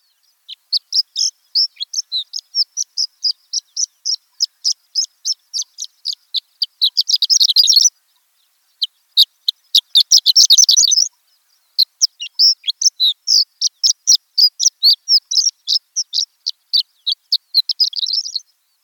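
A sparrow's long song: many rapid, high, thin chirping notes that fill the gaps between short songs. The notes come in dense runs with two brief pauses and no voices.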